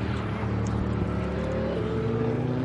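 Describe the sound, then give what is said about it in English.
A truck engine pulling off a racing circuit gives a steady, loud droning rumble with a tonal whine that climbs gradually in pitch toward the end. “truck pulling off the circuit there, disturbing my thought pattern there for a second”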